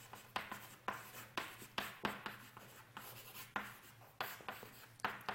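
Writing on a board during a mathematics lecture on matrices: many sharp taps and scratchy strokes in an irregular rhythm, fairly faint, with no talking.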